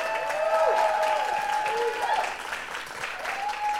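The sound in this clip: An audience at a live show claps and cheers for a group of volunteers: dense, steady applause with whoops and voices mixed in, dipping slightly past the midpoint before swelling again.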